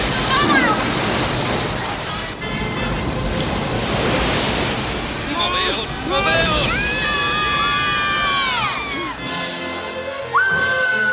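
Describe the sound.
Roaring rush of floodwater surging through a tunnel, a loud continuous torrent of broad noise with voices crying out over it midway.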